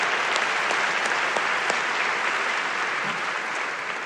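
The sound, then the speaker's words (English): Audience applause welcoming guests at a gathering: dense, steady clapping that holds at an even level for the whole stretch, with no single voice standing out. “Would you please give them a big hand and welcome them.”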